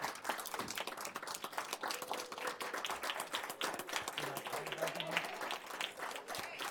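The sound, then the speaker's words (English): A round of applause for a high school dance team at a city council meeting: many hands clapping in a dense, continuous patter at moderate loudness for several seconds. “as Champaign Central Dance Team Day. Give yourselves a round of applause.”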